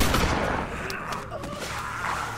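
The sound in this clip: Video game gunfire crackles in dense, overlapping bursts over a loud, noisy backdrop, the shots blurring together into a continuous barrage.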